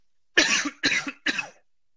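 Three loud coughs come in quick succession, each a harsh burst with a brief gap between, with no voices around them.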